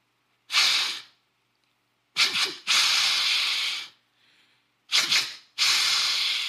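Deer snort-wheeze call blown through a hollow tube: loud, breathy hissing bursts. A lone puff comes first, then twice a sharp short burst runs into a long drawn-out wheeze, with no talk.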